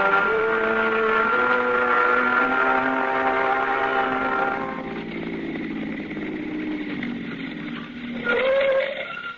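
A car drives along with a steady droning engine hum and a whining harmonic tone that slides lower midway, then briefly rises again near the end.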